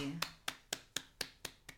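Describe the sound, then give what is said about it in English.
Hands clap seven times in a steady, evenly spaced rhythm, each clap a crisp, faint smack with nothing else around it. “That was our claps for Joey.”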